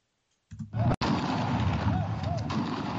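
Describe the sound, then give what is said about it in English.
Police gunfire at an anti-police protest in Lagos, Nigeria: a sharp crack cuts through a loud, continuous roar of crowd noise after the sound bursts in. “Police open fire as protesters continue to demonstrate against police brutality in Nigeria.”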